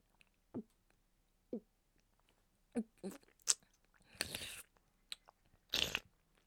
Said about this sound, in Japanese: 先ほどの濃厚プリプリラーメンいただきますね。